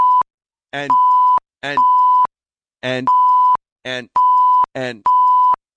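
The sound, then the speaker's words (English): Electronic security system beeps: five steady mid-pitched tones, each preceded by a short warbling chirp, separated by clean silences. “Now, did you hear those beeps? Yep. Those are the security. That's kicking in.”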